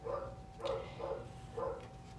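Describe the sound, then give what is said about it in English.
A female pet dog barks faintly in short bursts, about four barks spread evenly across the moment, with no talk over them. “if you can hear my doggy in the background, just excuse her.”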